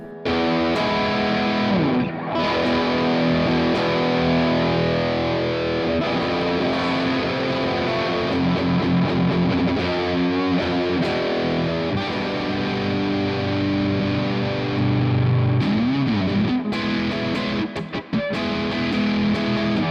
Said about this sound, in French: on passe sur le fameux son saturé orange pour voir si on est un peu dans l'esprit, un peu beaucoup, dans l'esprit Rocker Verb.